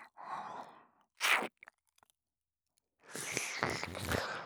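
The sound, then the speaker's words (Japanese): Close-up ASMR ear-licking mouth sounds come in faint bursts of wet smacks, soft clicks and breathy licks. A near-silent pause falls in the middle, and no words are spoken. “初めて耳舐めするけど、ずっと舐めてたいくらいすっごくおいし”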